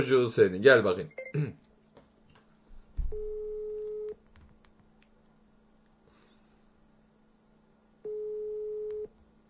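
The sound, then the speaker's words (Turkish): A telephone busy signal sounds as two long, steady, even-pitched tone bursts separated by a quiet gap, following a short stretch of talk at the start. “Büyük ihtimal garson bizi aradı, telefon meşgul çalıyordu.”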